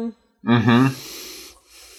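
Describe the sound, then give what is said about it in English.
Heavy breathing: one loud, voiced, wheezy exhale lasting about a second, then softer breath trailing off. “Who was breathing like that? That was me.”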